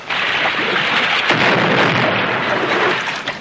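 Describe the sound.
A loud gunshot fired at wild animals during a jungle expedition, heard as a broad, noisy blast with a sharp crack near the middle that lingers for several seconds.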